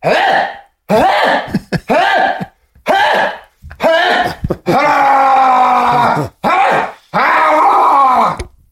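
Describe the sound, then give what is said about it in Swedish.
A voice imitates someone vomiting from food poisoning: many loud retching groans and gagging heaves in bursts separated by short pauses, some drawn out into long strained moans. “Och sen så spydde hon. Så här lät det.”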